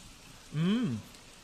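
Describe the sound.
Steady rain hisses softly and evenly in a cartoon scene. Midway, a brief tonal sound briefly cuts through it, rising and then falling in pitch.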